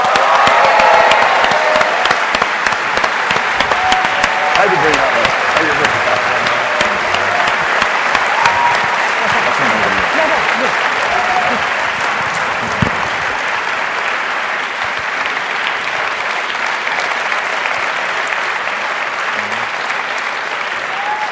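Audience applause at a seminar series event as guests come on stage: a long, continuous wash of clapping with a few cheers near the start, staying loud and easing only slightly toward the end.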